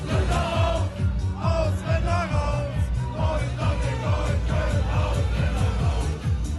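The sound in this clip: A crowd chants and yells along to a 1999 Italian dance song, loud massed voices riding over a steady, thumping dance beat that pulses evenly throughout.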